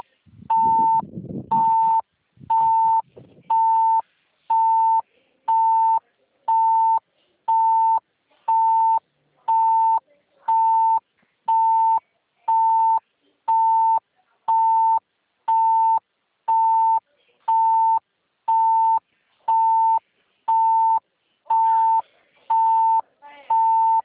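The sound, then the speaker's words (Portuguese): A phone ringing with an incoming call sounds as many short, evenly spaced mid-pitched beeps that repeat steadily throughout, with some low rustling noise near the start. “Espera aí, que tem alguém desesperado me ligando aqui.”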